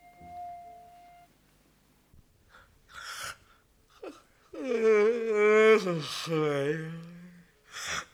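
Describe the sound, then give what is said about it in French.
A loud, drawn-out voiced yawn at a dinner table, a groaning tone of about two seconds that swells and then trails off, with short breathy sounds and brief voices before it. “Je te fais remarquer qu'on ne baille pas à table.”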